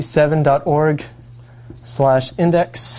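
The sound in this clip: Scratchy writing strokes on a board during a lecture, rough short rasps heard in the pauses and beneath ongoing speech.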